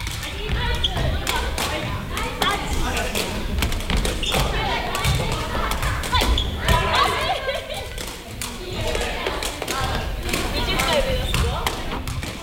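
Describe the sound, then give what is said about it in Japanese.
Sepak takraw players practise kicking the ball repeatedly without using their hands, trying to keep it from touching the ground. Many quick, uneven thumps and taps run throughout, mixed with voices in the background. “ボールを持たずに蹴り続けるリフティングの練習を行います。”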